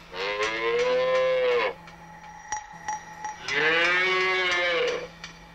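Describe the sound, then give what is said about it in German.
Young heifers mooing on a dairy farm: two long, loud, drawn-out bellows with a quieter gap between them filled by faint clanks and knocks. “Hier sehen Sie vier Rinder. Die geben noch keine Milch, weil eine Kuh gibt erst Milch, wenn sie ihr erstes Kalb gekriegt hat.”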